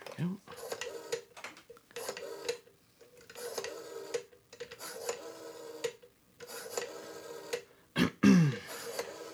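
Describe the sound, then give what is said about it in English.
A telephone being dialed: repeated ticking and rasping clicks in uneven bursts over several seconds, fairly faint, ending with a brief higher-pitched sound. “I just need to dial up the phenomenal Kate Nolan.”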